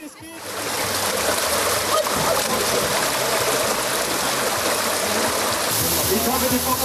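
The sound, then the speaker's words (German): Children splash down a water slide at a swimming pool, making a loud, continuous rush of flowing and splashing water that holds steady for several seconds. “Die Kinder stürmten natürlich sofort die Rutsche.”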